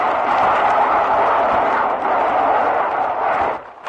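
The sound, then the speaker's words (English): Aircraft rockets fired at Japanese pillboxes on Iwo Jima in 1945 make a loud, continuous roaring rush that holds steady for several seconds, then falls away sharply at the end. “There goes another pair of rockets right in front of them.”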